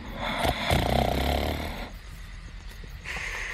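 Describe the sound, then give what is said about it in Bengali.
A person snores, one loud, rasping, rattling snore filling the first two seconds, then quieter breath and the start of another snore. “তারপর ওর নাক ডাকা শুরু হলো।”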